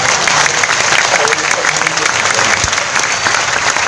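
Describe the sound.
Loud applause from an audience, a dense, steady wash of clapping that holds at full strength from start to finish without a break.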